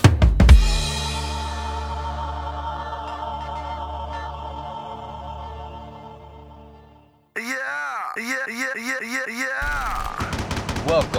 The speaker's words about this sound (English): It's so obscene to have gun sounds all over everything, man.